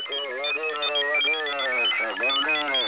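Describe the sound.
A doorbell ringing with a loud, continuous electronic tone that wavers through a repeating melody for about three seconds.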